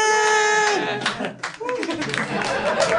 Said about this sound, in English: Polite clapping for impending nuptials.